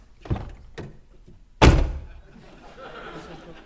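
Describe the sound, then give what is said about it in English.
A generic car door closes with one loud, heavy thunk, preceded by a few soft knocks and followed by faint rustling noise. “This is the sound of a car door closing.”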